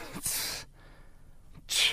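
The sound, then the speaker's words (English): A sneeze bursts out as a sharp, hissy blast, and a second similar burst follows after a short quiet pause. “No, I just had to sneeze.”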